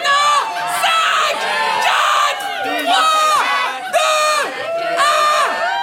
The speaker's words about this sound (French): Les femelles ne sont pas en reste. Et c'est souvent à plusieurs qu'elles se manifestent en poussant des cris stridents.